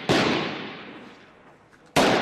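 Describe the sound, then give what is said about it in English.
Gunfire in a town street during fighting: a loud sharp shot opens, then a long fading tail trails off before a second loud shot cuts in near the end. No voices are heard. “The Iraqi military told us they'd liberated the town of Hamdaniya, but we arrived to find the streets still ringing with gunfire”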